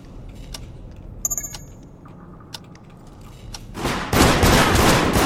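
Video game gunfire: a few sharp, isolated metallic clicks and pops, then a loud, sustained burst of rapid shots filling the final second or so.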